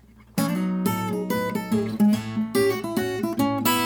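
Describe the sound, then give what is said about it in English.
Acoustic guitar plays a chord transition embellished with slides and pull-offs, a run of many ringing chord attacks with gliding and hammered notes between them, bright and loud, played alone without talk. “So if I was to dress it up, I'd add some slides and some pull-offs, and it would sound something like this.”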